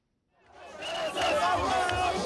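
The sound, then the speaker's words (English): Thousands of football supporters cheer in Bafoussam, Cameroon, as the 2017 Africa Cup of Nations trophy arrives. After a brief silence, a dense roar of many shouting voices swells in and stays loud to the end. “Thousands of supporters cheered the national football team as the trophy they won this month on February 5 at the 2017 Africa Cup of Nations arrived in Bafoussam”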